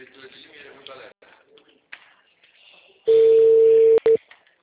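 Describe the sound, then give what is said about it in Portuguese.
Ringback tone on an outgoing phone call: one loud, steady mid-pitched beep lasting about a second, then a very short second burst. A voice talks quietly before the tone starts. “Tô em ligação, deixa eu ver se a mulher atende.”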